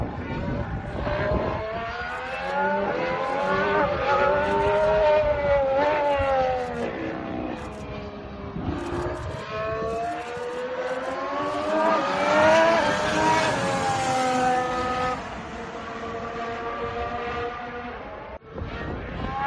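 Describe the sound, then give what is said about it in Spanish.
Formula 1 cars, a McLaren and a Mercedes sharing the same engine, scream past during tyre testing, their high-revving whine climbing and dropping repeatedly through gear changes, loud and continuous throughout. “Por repetido otra vez, el McLaren de Piastri y el Mercedes de George Russell probando neumáticos.”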